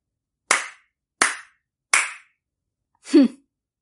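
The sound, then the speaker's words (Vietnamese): A character in a xianxia story claps three crisp, evenly spaced times, each sharp slap standing alone in silence, followed by a brief, softer sound of a different kind. “Ân tông chủ nói rất đúng. Vàng Nhân Ách vỗ tay nói.”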